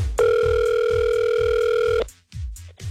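Telephone ringback tone on an outgoing call: one steady, bright ring lasting nearly two seconds over a low rhythmic beat, followed by short bursts of noise.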